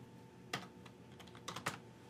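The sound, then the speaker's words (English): Keys clicking on a computer keyboard as a search is typed into an app's reading-list page: a few faint, sharp taps spread irregularly over a quiet background, with a small cluster of clicks near the end. “So if I wanted to find something within my reading list, right, I can just start typing,”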